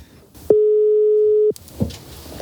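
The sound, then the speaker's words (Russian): A telephone ringing tone sounds while a call is being placed: one steady mid-pitched beep lasting about a second, heard alone against a quiet background. “А кому звоню? Звоню Саше Тупицыну, который не женат.”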